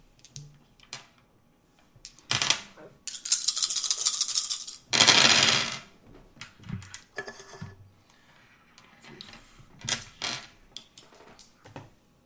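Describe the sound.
Dice roll on a table during a tabletop game: dry clattering rattles arrive in a few separate bursts, including two longer, louder rolls, with quiet gaps and small ticks between them. No one talks.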